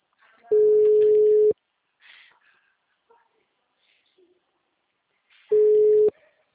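Ringback tone on an outgoing phone call: two long, steady electronic beeps, the first about a second and the second shorter, separated by a pause of roughly four seconds with faint low noises in between.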